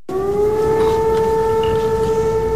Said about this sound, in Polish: O 17 odezwały się syreny.